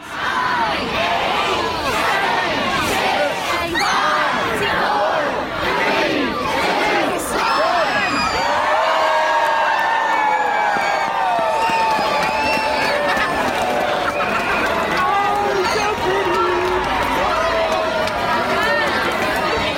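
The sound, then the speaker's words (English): Loud crowd voices fill the whole stretch as people count down to the grand illumination at Market Space in Annapolis, a holiday-season event. Shouting and cheering stay dense and steady throughout. “That was the countdown to the grand illumination last night down at Market Space.”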